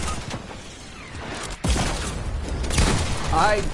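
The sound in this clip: Gunfire in a video game: sharp, loud bursts and heavy thuds punch through a busy bed of game noise, with a few distinct impacts.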